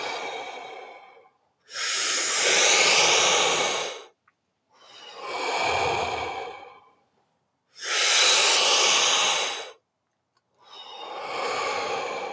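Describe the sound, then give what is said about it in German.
Deep, full breaths during a relaxed breathwork exercise: slow, airy inhales and exhales in a steady rhythm, each long breath separated from the next by a short silence, with no talking. “Hm, noch fünf Stück davon, ganz entspannt. Tiefe, volle Atemzüge.”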